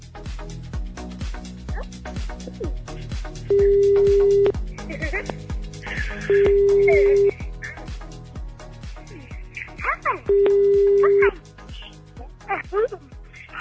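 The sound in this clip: A telephone call being placed: three steady, evenly spaced ringing tones, each about a second long, with people talking loudly before, between and around them.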